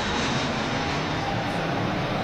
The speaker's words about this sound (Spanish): Varias miles de personas están expuestas a ruidos de entre 50 y 70 decibelios, que era el ruido del avión que escuchábamos antes.